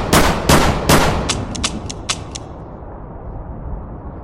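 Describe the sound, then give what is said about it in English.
Gunshots fired in a noir audio drama: three loud, sharp cracks in quick succession, then a rapid string of several fainter reports that fade into a low, steady background. “Taking the shot felt good. So good that I might go ahead and take a few more.”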